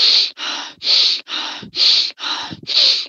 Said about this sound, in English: so that rapid connected breathing